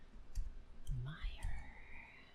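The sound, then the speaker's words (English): Faint clicking of typing on a computer keyboard: three sparse, sharp clicks spread over about two seconds, with a soft, muffled voice underneath. “Why can't I type? Can't type, can't talk.”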